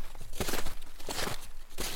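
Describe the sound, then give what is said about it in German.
Boots crunching on snow as two walkers step along, with several rhythmic, gritty crunches in an uneven stride. “Leise knirscht der Schnee unter den Stiefeln der beiden roten Milane.”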